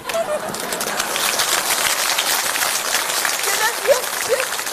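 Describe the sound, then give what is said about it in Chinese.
Audience applause swells into a dense, continuous patter of many hands clapping at a steady loud level, and a voice cuts in briefly near the end. “别鼓掌了，我得问问他。”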